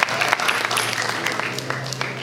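Audience applause at a large event honoring the organizing team and two performing artists: a dense, even wash of clapping that lasts about two seconds over a low, steady hum.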